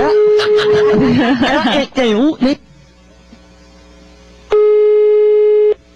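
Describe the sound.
Telephone ringback tone on an outgoing call: a steady low buzzing tone at the start under a voice, more talk, then a second steady tone of just over a second on its own.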